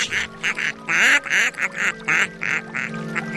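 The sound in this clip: Duck quacking: many loud, nasal quacks in a rapid, uneven series, some short and clipped, others longer and drawn out, with brief gaps between them.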